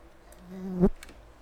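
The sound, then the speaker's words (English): A fly buzzes right against a microphone: a thin, droning whine swells over about half a second to a loud, close peak, then abruptly cuts off, leaving quiet background. “it was a fly. It's on your microphone. It buzzed in my... It's okay. I know, but it buzzed in my ears.”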